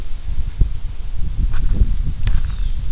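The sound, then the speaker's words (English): Wind blows outdoors beside a stream, a continuous low rumble of gusts buffeting the microphone, with faint rustling and a few soft crackles over it. “Oh, the wind is really picking up. Let's wait for the wind noise.”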